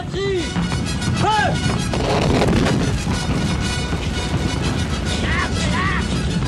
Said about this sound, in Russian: Французская укрепленная батарея полевой артиллерии открывает ураганный огонь по русским войскам.